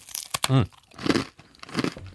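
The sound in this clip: Crunchy bites and chewing of a crisp almond cookie topped with almond cream, a few sharp crunching bursts with a short hummed voice sound between them.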